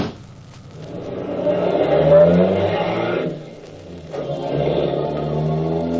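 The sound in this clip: A cab's engine revs as it drives off, swelling to a loud roar, dipping briefly, then picking up again into a steady accelerating drone.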